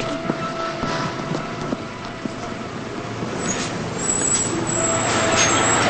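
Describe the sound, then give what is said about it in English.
A bus drives onward, its engine giving a low continuous rumble with occasional knocks and rattles, growing a little louder toward the end. “Lila gets on the bus. She starts moving to her seat as the bus drives onward.”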